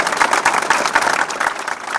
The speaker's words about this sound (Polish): Brawa!